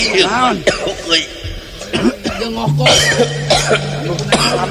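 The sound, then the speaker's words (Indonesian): Harsh, throaty coughing comes in several bursts mixed with a person talking. The coughs are loud and irregular, with bits of throat clearing between them. “Ngeganggu pisan nya batuk aing duh.”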